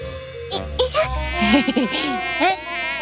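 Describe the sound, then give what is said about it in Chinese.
A mosquito buzzes, a thin, whining drone that wavers up and down in pitch and swells and fades in loudness across the few seconds. “蚊子，哎， 好痒啊！要是冬天来了，就没有什么蚊子了。”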